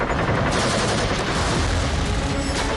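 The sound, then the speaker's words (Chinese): Heavy machine gun fire pours from a hidden bunker on a riverside cliff at night, aimed at an assault boat crossing. It is a dense, unbroken roar of rapid shots that stays loud and steady throughout, with no pauses. “板子矶上暗堡里的机枪疯狂扫射，子弹像暴雨一样倾泻而下”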